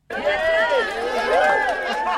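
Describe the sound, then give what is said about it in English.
Friends and family gathered at Spaceport America in the New Mexico desert cheer loudly as the Galactic 2 passengers leave the hangar. Several raised voices whoop and shout at the same time, over a continuous crowd roar. “As the passengers of Galactic 2 made their way out of the hangar, they were greeted with huge cheers from the friends and family who had gathered at Spaceport America to wish them well on their journey.”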